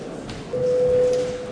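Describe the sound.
A parliament voting bell sounds during a vote in the chamber: one steady, mid-pitched electronic tone that holds evenly for under a second over faint room noise, with no talk.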